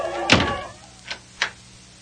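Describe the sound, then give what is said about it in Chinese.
A large door closes with one heavy thud, followed by two short, sharp clicks, heard alone. “然后大门关上了”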